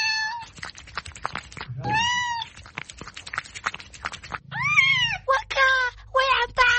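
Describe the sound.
Several loud, high cat meows with bending pitch, one after another over a busy, steady background.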